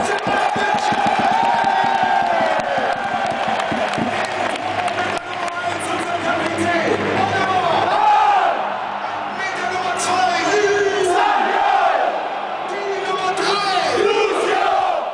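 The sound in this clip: Bayern fans sing and chant en masse at the Olympic stadium during the club's final match there, a loud, sustained roar of crowd voices rising and falling in waves for the whole stretch.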